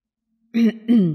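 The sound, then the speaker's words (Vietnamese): Two short, voiced coughs come in quick succession, loud and alone, from someone coughing violently. “Thiệu Vấn ho khan đến tê tâm liệt phế”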